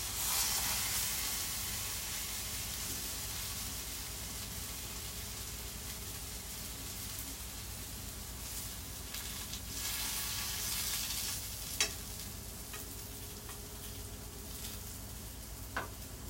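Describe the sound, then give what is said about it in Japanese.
Sweet potato frying in a pan over medium heat and starting to scorch and stick, giving a steady hiss throughout, with light stirring scrapes and a couple of brief sharp clicks in the second half. “あ、やばい、ちょっと焦げついてる。ちょっと中火でも良くなかったか、これは。”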